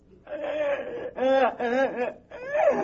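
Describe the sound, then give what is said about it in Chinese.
A child cries and wails in four wavering, mid-pitched sobbing bursts with short breaks between them, heard alone without other voices. “别哭别哭，怎么回事？”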